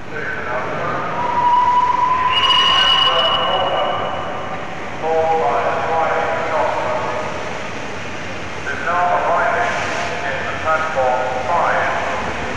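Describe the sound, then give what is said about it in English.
A locomotive arriving at Paddington Station in November 1965, with long whistle-like tones and a low rumble rising and falling in a few swells, while a voice talks at times. “you can hear now the sounds recorded at Paddington Station when the locomotive arrived back on a November day in”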